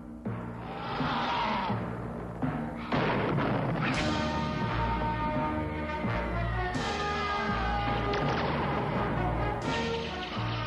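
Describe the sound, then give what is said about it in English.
Saturday morning Hulk cartoon theme music, slow, plodding and melodramatic, with bombastic booming timpani strikes landing over dense, sustained orchestral chords. “It's the big, you know, bombastic timpanis. It's, you know, slow and plodding and methodical like the Hulk would be.”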